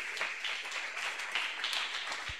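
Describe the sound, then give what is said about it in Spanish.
Applause from an audience at a Pentecostal church service: a dense, steady wash of many hands clapping, sustained evenly throughout with no voices standing out. “¡Aplauso para Cristo Jesús!”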